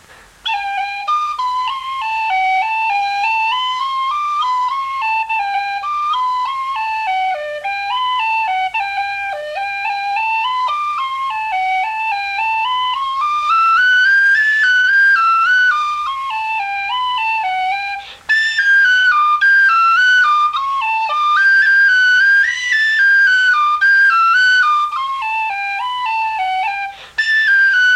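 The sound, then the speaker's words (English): A whistle plays a reel with short G rolls at a slowed tempo: a steady, bright, ornamented melody line that runs continuously, with no talking. “Here now is an example of a reel with a short G roll.”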